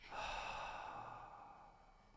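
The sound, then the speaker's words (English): A long, breathy exhalation released during a guided relaxation breathing exercise, a soft airy rush that swells early and then slowly tapers off, heard alone without talk. “So we're going to go ahead and breathe in through our nose in a double inhalation. We'll hold at the top. Tense the body. And release with a double exhalation.”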